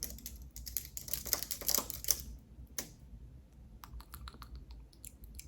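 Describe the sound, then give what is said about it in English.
Crisp clicks of typing on a computer keyboard during a soft-spoken ASMR roleplay: a dense flurry of fast keystrokes first, then sparser, scattered taps with pauses between them. “So we're just gonna type in. I have to Google the spell.”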